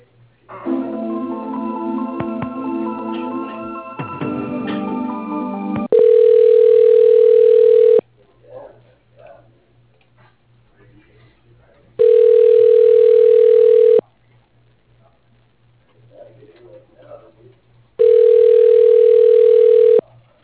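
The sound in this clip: Telephone line tones play while a call is transferred to voicemail. A brief stretch of tonal, music-like sound comes first, then three steady, loud beeps of about two seconds each, evenly spaced with quiet gaps between them.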